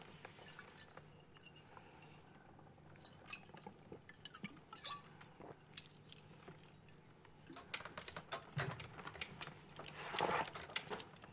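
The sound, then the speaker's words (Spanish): Whisky being drunk from a hip flask: faint liquid sloshing and dripping with small sharp clinks of metal or glass, growing busier and louder toward the end. “Observa el poco whisky que ha dejado en la botella. Ahí tienes. Bebe de su petaca.”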